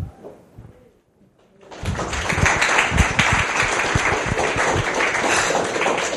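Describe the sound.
Audience applause welcomes a speaker at a talk on homeopathy in the UK. A short near-silent stretch gives way, at about two seconds, to dense, steady clapping that stays loud to the end.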